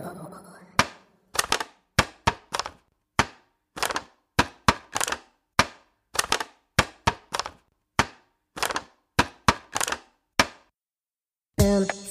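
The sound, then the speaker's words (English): A plastic container that once held strawberries is squished, giving many sharp, dry crackling snaps in quick, irregular bursts separated by short silences. “The answer is plastic. That was a plastic container that I think once had strawberries in it.”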